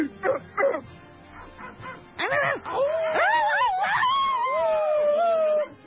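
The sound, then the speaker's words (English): Radio station staff imitate dogs: a few short bark-like yelps, then a long, wavering howl from overlapping voices that rises and falls in pitch. “You just had half of the 90FM staff barking at you.”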